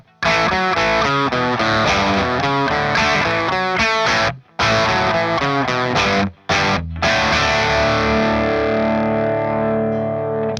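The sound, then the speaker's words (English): Distorted electric guitar from an SG with Mercury humbuckers through a Marshall, with a Sarno Earth Drive pedal adding gain. Loud, driven chords play almost continuously, with two brief gaps, and a final chord rings out and sustains to the end. “let's add in the Earth Drive now, which is going to add a bit more gain to it.”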